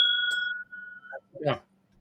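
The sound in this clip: Glasses clink together in a toast at a barley single malt whisky tasting, leaving a bright, sustained ring that fades over about a second, followed by a brief voice.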